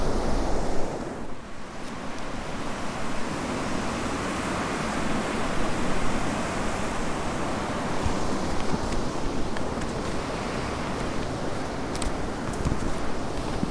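Waves breaking on a beach beside an old pier at Totland Bay make a continuous loud roar of surf, a dense steady wash with some wind noise and no talking.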